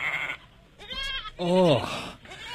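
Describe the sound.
A goat standing behind a black goat in a herd bleats a couple of times in wavering, nasal cries, with people talking around it.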